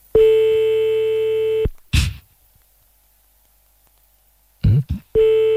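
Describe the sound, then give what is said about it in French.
Telephone line tones around a redial after a hang-up: a loud, steady tone, a brief noisy burst, a long silence, two short bursts, then the steady tone returns. “Ah, c'est raccroché, on rappelle.”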